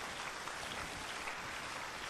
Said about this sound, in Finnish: Come on, clap for Jesus. Go ahead. Taputukset Jeesukselle, annetaan vaan.